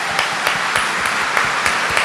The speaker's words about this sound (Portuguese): já vai aplaudindo esse Deus maravilhoso no nosso meio. Mais forte, mais forte, mais forte, mais forte.